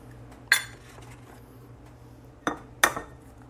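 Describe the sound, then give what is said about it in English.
Eggs cracked against the edge of a small bowl give three sharp, clicky taps, the first alone and the last two close together, over a faint steady background hum. “I'm going to crack the eggs into a little bowl so that if I get little bits of shell in there, they don't go all the way into the mix.”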